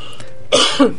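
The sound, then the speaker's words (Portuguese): Two quick, harsh coughs from a person with rhinitis in Curitiba break a quiet pause, the second one short and sharp right after the first. “Desculpa, gente. Isso é Curitiba com nossa rinite eterna.”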